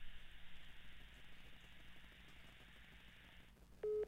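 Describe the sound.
Faint telephone line hiss after a spam caller hangs up, ending with one short, loud beep of a busy tone.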